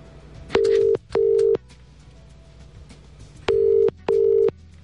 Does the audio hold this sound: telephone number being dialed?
yes